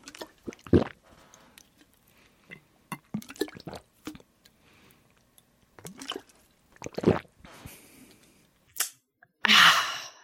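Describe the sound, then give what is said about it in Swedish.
Water is sucked through a straw fitted with a flavour pod, making bubbling slurps: irregular short gurgling bursts separated by quiet gaps, ending with a longer, hissier burst. “Och det som händer då är att det kommer börja bubbla lite när du dricker och det låter typ så här.”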